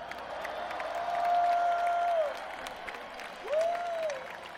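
A concert audience applauds the crew on the last night of a tour, with steady crowd clapping and two sustained whistles rising above it. The clapping swells around the first whistle.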